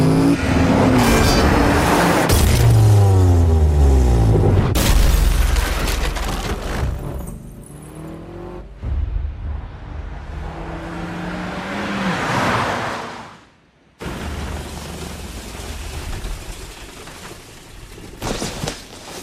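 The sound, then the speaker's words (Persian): Car engine accelerating hard, its roar sweeping through changing pitch across a loud, busy passage with bursts of other noise and a sudden brief drop near the end. “به این ماشین مسخره گاز بده، گاز بده سریع تر”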